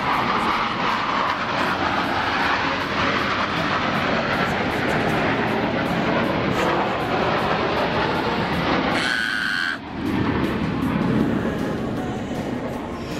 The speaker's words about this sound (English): airplanes make those, they make that like, it's not just a loud motor sound. It's like, sounds like this, they're ripping the sky open.